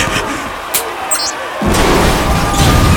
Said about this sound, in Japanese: くそ、東塔が爆破された。